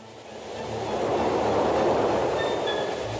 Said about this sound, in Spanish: ¿Viene el tren?